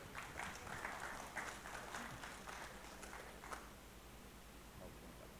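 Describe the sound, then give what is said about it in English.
Faint audience applause welcoming a speaker to the stage at a Christian kinship sharing event, steady many-handed clapping that thins slightly toward the end. “Give Craig a welcome, please.”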